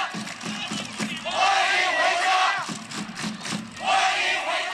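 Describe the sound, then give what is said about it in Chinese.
Kunming football fans at an amateur league match chant a welcome to a player. Their loud, rhythmic massed shouting swells in two strong bursts separated by quieter crowd murmur. “这个是昆明的球迷对顾文祥的一个欢迎哈”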